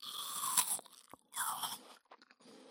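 Crisp, fragrant apple being bitten and chewed: a few sharp, crunchy bursts separated by short quiet gaps, then softer, more broken chewing crunches toward the end, with no talking.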